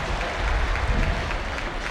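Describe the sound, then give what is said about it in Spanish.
Stadium crowd applause, an ovation for a football player as the team lineup is announced: a dense, steady wash of clapping and crowd noise that holds level throughout. “Linda ovación para Barco.”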